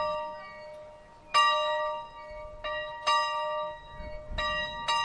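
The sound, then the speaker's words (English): A school bell at a preserved one-room schoolhouse in Boone County rings in several clear, ringing strikes, some spaced apart and some in quick pairs. Each strike's tone lingers and fades between hits. “You will hear the school bell in the background at times.”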